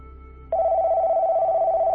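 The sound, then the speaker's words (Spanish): A telephone rings with an incoming call: after half a second of low hum, a loud, steady mid-pitched electronic tone starts abruptly and holds, slightly wavering, to the end. “Tenemos una llamada.”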